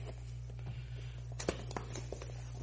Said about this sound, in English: Just tearing this box all up.